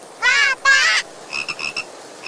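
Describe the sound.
A frog croaking on a leaf: two long, buzzy, harmonic croaks in a row, then a few shorter, softer chirping calls, all fairly loud with no voices.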